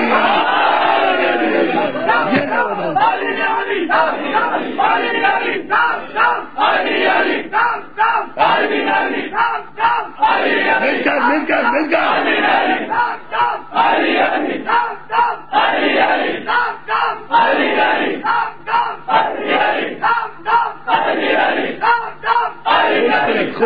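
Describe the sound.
Large crowd shouting the Naara-e-Haidari slogan: many voices roar together in loud, repeated chanted bursts with short dips between phrases, sustained throughout.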